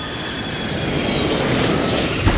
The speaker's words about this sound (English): Hang on, we're coming in for a landing.